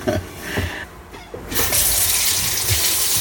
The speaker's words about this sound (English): And I'm just gonna rinse a little bit in the sink here.